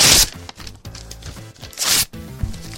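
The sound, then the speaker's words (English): Paper tearing as a letter is ripped up, a few rough, noisy rips of varying loudness with short gaps between them. “Oh, and I guess I better rip up this letter.”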